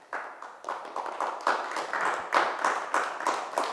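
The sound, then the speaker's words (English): Polite courtesy clapping from an audience at a church gathering: a loose, uneven patter of claps, fairly soft and scattered rather than a full ovation, carrying on for several seconds without talk. “bit of a courtesy clap”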